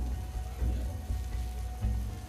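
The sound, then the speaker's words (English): Boiling hot syrup is poured onto trays of baklava, producing a steady, soft crackling sizzle like light rain that continues evenly throughout with small bursts. “Finally, the boiling hot syrup. And then this, the team calls it the dance of the baklava.”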